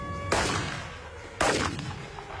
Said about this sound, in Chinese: 别跑，再跑就开枪了。